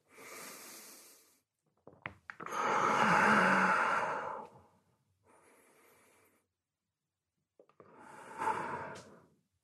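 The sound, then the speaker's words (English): Deep breaths during a yoga twisting lunge: a few slow, airy inhales and exhales, one long and loud in the middle, one faint, with quiet pauses between them and no talking. “Raise the left arm up, it's a twisting lunge. Take a couple breaths.”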